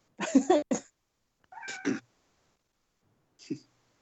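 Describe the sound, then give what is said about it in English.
A domestic cat meows three times, with a doubled call first, a second after a pause and a shorter, fainter one near the end, set apart by silence. “My cat agrees.”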